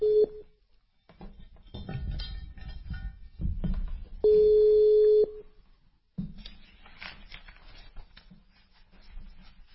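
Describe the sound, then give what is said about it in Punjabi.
Telephone tones sound as a phone call is placed: a short tone at the start, then a longer steady tone of about a second midway, amid faint rustling and low noise. “ਆ ਲਓ ਜੀ, ਮੈਂ ਤੁਹਾਨੂੰ ਕਾਲ ਕਰ ਦਿੱਤੀ ਜੇ।”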